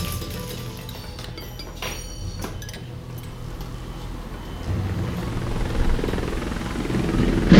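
Aircraft coming in to land in strong wind: a broad, rumbling engine and rotor roar that runs throughout and grows noticeably louder in the second half.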